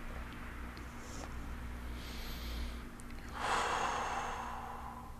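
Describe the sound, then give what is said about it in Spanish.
A deep breath in through the nose and out through the mouth during a guided meditation: a soft, airy inhale followed by a louder, broader rush of exhaled air, over a steady low hum. “Inhala bien profundo, inhala por tu nariz, exhala por tu boca.”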